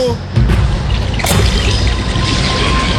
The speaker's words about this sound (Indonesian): Air ini, Simon. Kenapa? Kenapa jadi begini? Kenapa air itu di mana-mana? Iya, ini suka air bah ini, Simon